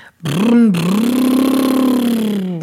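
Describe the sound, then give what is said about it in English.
A voice imitates a motor with a bilabial raspberry, a buzzing lip trill. A short burst is followed by a long, steady, mid-pitched drone that wavers slightly, all fairly loud and without words. “For example, the bilabial raspberries can be used for motor sounds.”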